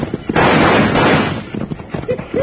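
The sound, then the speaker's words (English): Gunfire from attackers hidden in trees rings out around a stagecoach: a loud, dense burst of crackling shots comes first, then several smaller scattered pops. “I'd rather have somebody shooting at the stage. Hey, now that was too darn close. This time we can shoot back, Jingles.”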